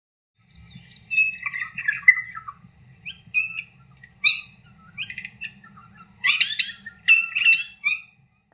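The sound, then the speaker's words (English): Regent Honeyeater song: several bursts of bright, scratchy chirps and warbled notes in irregular phrases with short pauses between, over a faint low hum. “That was the song of the Regent Honeyeater.”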